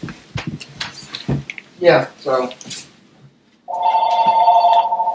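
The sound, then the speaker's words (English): A telephone ringing during a sports talk show: people talk first, then after a short pause a steady electronic warbling ring begins and continues loudly to the end. “Anyway, it's a phone call going on while we're doing the show.”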